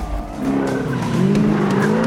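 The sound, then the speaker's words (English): Tyres squeal as an Aston Martin skids around a hairpin bend on a hillside road, its tail swinging out. A continuous, wavering screech rides over the steady roar of the engine throughout. “The tail of the Aston Martin swings out behind them as they make the turn.”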